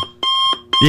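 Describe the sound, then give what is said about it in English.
Old-fashioned alarm clock going off, two bright, buzzing beeps in quick succession, with a person talking briefly over them. “Did any of the sounds you heard at the beginning sound at all like this alarm clock?”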